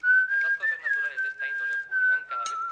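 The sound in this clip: Human whistling held on one sustained, nearly steady note for about three seconds, with a person talking over it.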